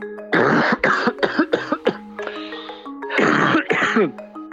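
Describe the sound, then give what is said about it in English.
A person ill with coronavirus coughs harshly and repeatedly. Several rough bursts come in quick succession, then a few longer, wheezy coughs follow, loud and with no talk. “That's the sound of coronavirus. It's the cough you get when you come down with it.”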